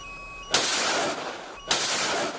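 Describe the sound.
A Chinese navy warship fires launchers during an anti-torpedo drill at sea: two sharp, loud blasts, each followed by a roaring whoosh that trails off over about a second, after faint steady tones.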